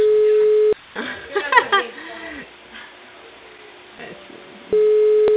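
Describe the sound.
A telephone ringback tone sounds as a call to a customer goes unanswered. A steady mid-pitched tone is followed by a pause with muffled talk, then the tone returns, all with narrow phone-line quality.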